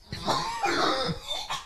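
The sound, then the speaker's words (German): A few harsh, raspy coughs from a person, coming in quick bursts close together, fairly loud and with no talk. “Husten.”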